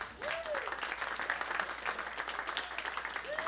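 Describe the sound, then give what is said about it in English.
A church audience applauds to welcome the lead pastor at a Sunday morning service, a dense, steady wash of clapping that holds at an even level throughout. “So let's go ahead and let's welcome our lead pastor, Joe Sorce.”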